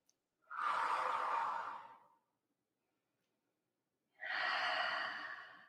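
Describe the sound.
Two long, loud breaths during a standing yoga side bend, each a broad airy rush lasting over a second, separated by a few seconds of silence.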